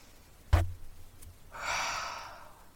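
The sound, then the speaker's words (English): A deep breath: one long, airy breath lasting about a second, steady and then slowly fading. A single low thump comes before it. No talking is heard. “Alright, so take a deep breath.”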